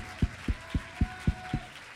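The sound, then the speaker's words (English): A church audience clapping hands in unison during a service: six deep, evenly spaced claps in a steady rhythm, followed by a brief quiet stretch. “Clap your hands unto him and bless his name.”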